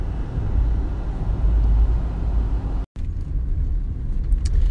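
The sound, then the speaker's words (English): Inside a moving conversion van, the engine and road noise make a steady, loud low rumble with a broad hiss, broken once by a brief gap. “I'm just driving to work, currently in the Big Mom conversion van.”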